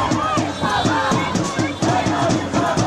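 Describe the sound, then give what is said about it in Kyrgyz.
A loud crowd of protesters at a Tel Aviv rally in support of families of hostages held in Gaza, voices shouting together in a steady, repeating rhythm that swells and dips throughout. “Миңдеген израилдиктер жекшембинин кечинде Тель-Авивде нааразылык акциясына чыгышты.”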